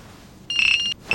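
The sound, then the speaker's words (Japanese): Email notification chiming on a mobile phone: a bright, high electronic tone held for about half a second, then a second tone that starts again and is cut off. “なんだよ、メールか。って、俺の方にも来たっぽい。”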